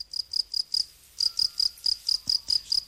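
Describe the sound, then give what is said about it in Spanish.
A field cricket (Gryllus campestris) chirps in high, pulsing bursts at a steady, regular rhythm, with a brief pause after the first four chirps before a longer run continues alone. “Tenemos otro sonido más. Este yo creo que es más frecuente porque es de un Grillus campestris.”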